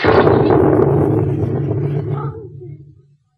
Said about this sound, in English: Majesty, a bomb! Stand back, get away from that window! Quick, look out!